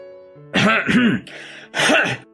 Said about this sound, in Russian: Откашлялся он сухим, пыльным басом.